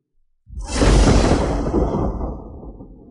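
A magic thunderbolt strikes a magical defensive shield with a loud, sudden booming crash. It starts abruptly after a brief silence, then rumbles as a dense roar that slowly fades away.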